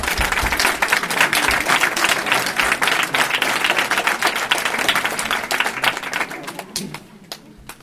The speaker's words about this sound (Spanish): Otro aplauso.